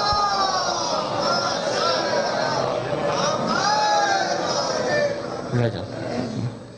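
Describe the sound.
A religious gathering's audience recites salawat aloud in unison. Many voices merge into a loud, sustained chant that rolls on for several seconds.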